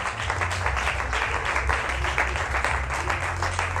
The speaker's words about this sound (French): On va acclamer le Seigneur Jésus pour toutes ces victoires que nous avons obtenues, pour ce moment qu'il a permis et pour tout ce que nous avons obtenu dans la prière.